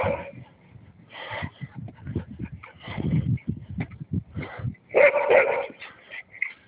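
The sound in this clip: Dogs bark, yip and whimper in irregular short bursts, with sharp higher yips cutting through softer whining; the sounds overlap and come in uneven clusters throughout.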